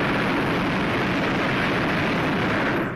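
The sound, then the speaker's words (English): A hot-air balloon burner fires at takeoff, a loud, steady roar held for about three seconds before it cuts off abruptly. “Burner coming on.”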